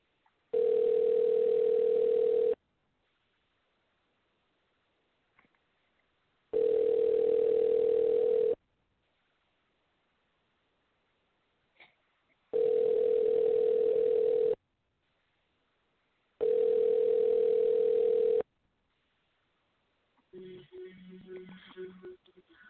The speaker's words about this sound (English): So now that there's no music, we're going to dial him back in.